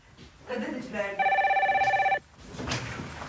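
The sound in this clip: A telephone rings once, a bright trilling electronic bell burst with a rapid pulsing warble, held for about a second at steady volume, with voices talking just before and after it.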